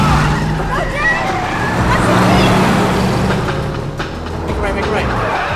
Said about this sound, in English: puts his foot down. Now he races along a narrow alleyway. He speeds through a blind junction.